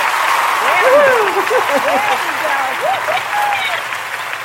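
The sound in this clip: Audience applause for a guest on a live-streamed talk show, a continuous wash of clapping that holds steady throughout while a voice talks over it.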